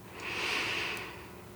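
A slow breath is drawn in through the nose as a soft, airy hiss that swells gradually and then eases off. It is a single quiet inhalation with no voices.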